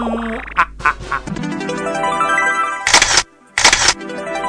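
Two camera shutter snaps, harsh noisy bursts close together near the end, follow a stretch of tonal sound with sliding, rising notes.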